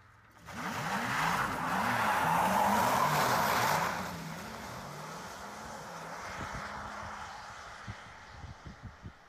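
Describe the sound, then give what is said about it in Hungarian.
A Porsche Taycan electric car driving: loud whining tones sweep up and down repeatedly for a few seconds, then the sound drops to a softer steady drone, and a few short clicks follow near the end. “mentem a Taycannal, a Taycannal menni az egy másik szinten kurva jó tényleg, mert azért az egy Porsche. Na. Az egyik legérdekesebb nyilván az, hogy hogyan megy.”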